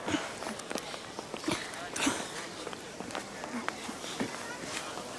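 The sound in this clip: Footsteps of several people walking toward a bratwurst stand: many light, fairly regular steps scuffing and tapping, with voices murmuring in the background.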